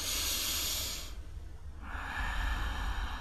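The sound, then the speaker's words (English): A deep breath taken during a guided forgiveness affirmation: two long, soft, airy breath sounds split by a short pause, quiet and with no talking over them. “Take a deep breath.”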